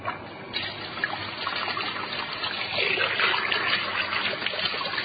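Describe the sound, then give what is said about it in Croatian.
Water poured into a džezva, a small pot used here for making tea, makes a steady trickling stream that swells a little louder toward the end, with no talk over it. “Za početak sipat ćemo vodu u džezvu.”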